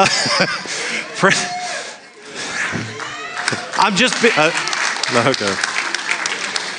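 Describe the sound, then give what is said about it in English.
Audience applause and hand claps during a church service, mixed with voices and speech throughout, at a fairly loud, uneven level. “I was more expecting laughs rather than hand claps, but thank you.”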